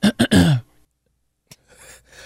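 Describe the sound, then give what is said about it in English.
A throat clearing comes as a few short, raspy voiced bursts in quick succession, followed by quiet, a single brief click and faint low noise. “you cleared your throat live on the air”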